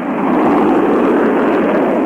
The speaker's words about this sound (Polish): Ignition sequence start.